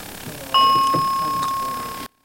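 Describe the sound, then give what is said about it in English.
A mobile phone notification chime sounds once, a bright bell-like tone that rings out steadily and slowly fades away. “Is that your phone again?”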